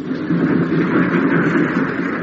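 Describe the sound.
A train being driven along the line gives a steady, loud rumble. The low mechanical drone runs unbroken from start to finish, with no voices.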